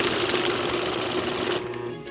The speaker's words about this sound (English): That's the money counter.